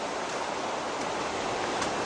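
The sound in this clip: The Kaweah River rushes steadily beneath Pumpkin Hollow Bridge, an old span built in 1922. The flowing water makes an even, hissing roar that holds constant with no voices.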